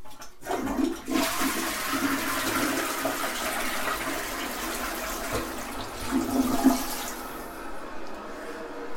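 A toilet flushes with a sudden loud rush of water that roars steadily for several seconds, then thins and fades toward the end.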